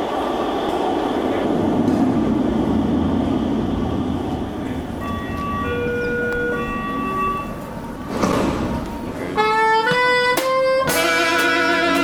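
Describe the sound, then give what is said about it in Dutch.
Metro train arriving on a newly opened line, a low rumbling roll joined by whining electric motor tones that step through pitches, ending in a loud, ringing tonal signal. “In de metro, maar dat geloof je toch niet? Het is echt een feestelijke dag, de officiële opening van de metrolijn B tussen Nesserlanden, een mooi strand, en Hoek van Holland, het andere strand.”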